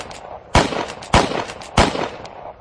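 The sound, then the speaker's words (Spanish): Gunshots from a revolver fired through the passenger-side window of a car: three sharp, loud cracks spaced at roughly even intervals, each with a short rumbling tail. “Se inclinó ante la ventanilla del copiloto y disparó 4 veces.”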